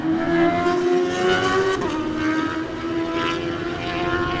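A Suzuki GSX-R 750 racing motorcycle pulls away from a road-race start, its loud, buzzing engine whine holding steady with rich harmonics that briefly slide upward as it accelerates.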